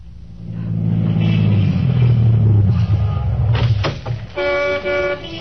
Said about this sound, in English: when a brand new Cadillac sedan pulled to a stop